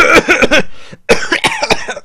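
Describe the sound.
Harsh, loud coughing comes in two quick bouts of several coughs each, separated by a short pause.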